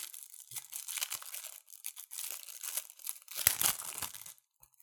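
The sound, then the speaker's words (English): A plastic-wrapped rack pack of baseball trading cards is torn open with continuous faint crinkling, crackling and tearing of the wrapper in uneven bursts. It ends in silence. “So I'm sure this pack holds a lot of great cards in there, but go ahead and open it up.”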